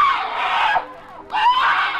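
A woman screams in a tense detective drama: two long, loud, shrill cries with a brief gap between them.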